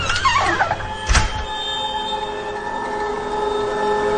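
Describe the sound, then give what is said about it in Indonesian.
A door is shut with one short, heavy thud. A steady tonal hum lingers after it. “Lalu aku keluar mematikan lampu dan menutup pintunya.”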